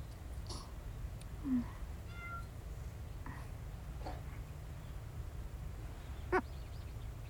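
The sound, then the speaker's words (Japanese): Cat meowing, heard as two short, faint meows spaced well apart over a steady low background hum, with no voices. “猫ちゃん、とろくさいね。”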